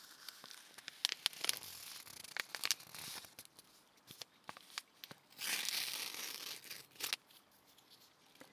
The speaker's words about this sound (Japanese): 紙とこのティーバッグの素材の音、いい音ですよね。